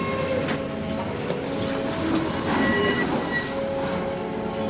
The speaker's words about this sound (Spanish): Adelante, que salga el tren.